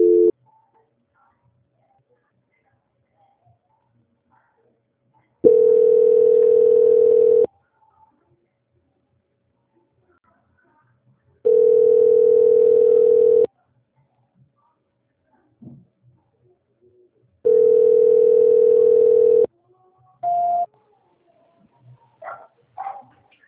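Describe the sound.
Telephone tone during a call transfer: a steady mid-pitched tone sounds in three long bursts of about two seconds each, separated by silence, with a few short blips near the end.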